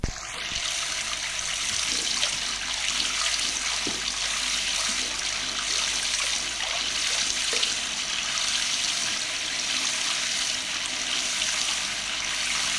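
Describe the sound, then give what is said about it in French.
Running water in a hotel room, a steady, even rush of hiss that holds at one level for the whole stretch with no breaks and no voices. “Je n'entendais plus avec le bruit de l'eau.”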